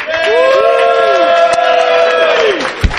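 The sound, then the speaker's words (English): A studio audience at a convention stage cheers with sustained whoops from several voices that swoop up and down in pitch, holding for nearly three seconds before a single soft thump. “All right, and here's our studio audience.”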